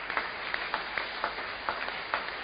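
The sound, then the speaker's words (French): Members of a church audience clap in praise of the word of the Lord, with many dull, muffled claps in a fairly regular rhythm over a soft background hiss. “Acclamons la parole du Seigneur.”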